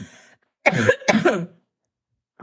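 Someone clears their throat in two rough, rasping bursts in quick succession, then falls silent.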